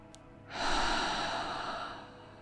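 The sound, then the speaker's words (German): A single forceful exhale through the mouth during a guided breathing exercise: a loud, breathy rush that swells quickly and holds for about a second and a half before tapering off. “Atme noch einmal ein und kraftvoll durch den Mund aus.”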